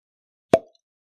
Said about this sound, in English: it looks like it's got a synthetic cork. But I can go ahead and pop the bottle. Yeah, let's hear a nice pop.